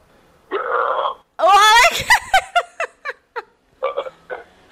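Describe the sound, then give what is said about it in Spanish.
A man burps: two long, loud, rumbling belches, then a string of short, choppy bursts that sound like giggling. “Muy bien, este ya ha sido un buen eructo”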